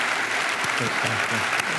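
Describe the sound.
Audience applause welcoming guests: a steady wash of clapping from a crowd, loud and even throughout, with a voice faintly audible over it.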